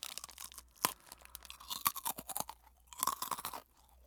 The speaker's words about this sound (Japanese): これ当たるまで私食べ続ける感じ。